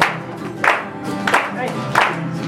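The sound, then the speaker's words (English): Rhythmic clapping from a church audience clapping in praise, with a few sharp, evenly spaced claps standing out over continuous voices. “Oh, it's Him and Him clap and praise. Or clap off for now. Clap off.”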